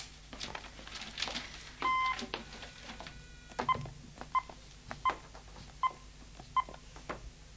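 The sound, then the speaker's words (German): Telephone dialing tones sound as the redial button is pressed: five short, evenly spaced electronic beeps follow a few handling clicks and a brief steady tone. “Das Telefon. Es hat eine Wahlwiederholung. Aha. Fragt sich, wen er zuletzt angerufen hat. Könnte interessant sein. Na los doch, drück auf den Knopf.”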